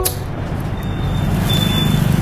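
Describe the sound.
Road traffic in a jam makes a steady, low engine rumble that holds at an even level throughout, with no distinct horns or passing vehicles standing out and no talking.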